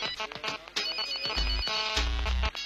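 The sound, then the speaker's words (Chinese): Electronic telephone ringtone: a bright, melodic run of repeating harmonic tones over pulsing low bass notes, sustained and fairly loud throughout. “我的电话不得不响，就算再忙”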